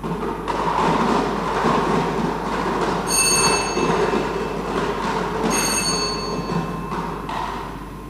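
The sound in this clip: Mechanical rumble of a lottery number drum spinning during a prize draw, a loud, continuous whirring clatter with two brief bursts of high, ringing, squeal-like tones partway through.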